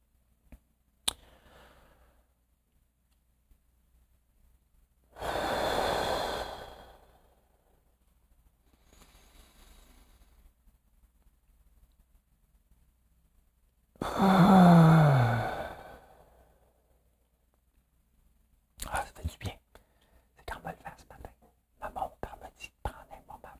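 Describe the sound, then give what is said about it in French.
Deep breaths from a breathing exercise: two long, loud breaths spaced well apart, with near silence between them and faint clicks and rustling near the end. “je fais des respirations Wim Hof.”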